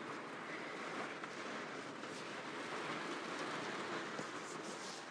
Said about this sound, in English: And this is the sound of the wind and rain in my caravan.